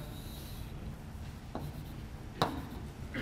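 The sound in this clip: Drawing on a board during a mathematics lecture: a few brief, faint scratchy strokes over steady low background noise.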